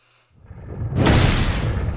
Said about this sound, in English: You gotta shoot enough guns to make your way through a wall of lava.